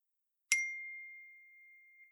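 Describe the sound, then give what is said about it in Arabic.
A WhatsApp message notification ding on a grandmother's phone while she cooks: one bright, clean chime with a sharp attack and a long, pure ringing tone that slowly fades, heard alone. “وبينما كانت تطبخ وصلتها رسالة عبر واتساب”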